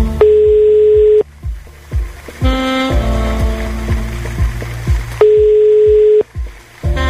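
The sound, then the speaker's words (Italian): Telephone line tone while placing a call: two steady one-second tone bursts several seconds apart, sounding over busy background music. “chiamiamo la mamma di un nostro ascoltatore che si chiama Luca”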